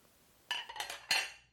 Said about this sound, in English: Okay, well, let me clear your dishes while I explain this course.